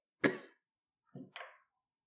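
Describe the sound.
A person coughs alone and faintly: one sharp cough, then after a short pause two quicker coughs in close succession.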